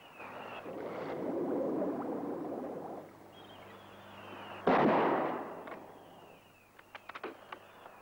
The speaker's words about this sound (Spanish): Estoy ensayando. Tengo un rifle nuevo. Hay que prepararse para la cacería del domingo.